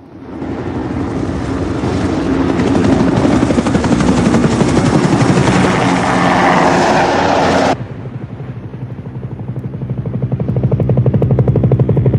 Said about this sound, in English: The helicopter flies away from darkened Manhattan.